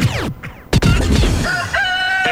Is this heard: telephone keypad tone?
no